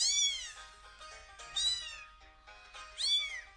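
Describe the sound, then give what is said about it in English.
Kittens meowing: three thin, high-pitched cries, each arching up and then falling, spaced roughly a second and a half apart over a faint low hum. “Is that the kittens?”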